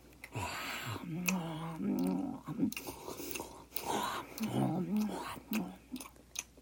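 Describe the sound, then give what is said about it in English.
Zombie-style eating sounds: wet chewing and biting mixed with low, guttural groans and growls from a voice imitating a feeding zombie, continuous throughout. “Speaking of tasting funny, here's some zombie ASMR.”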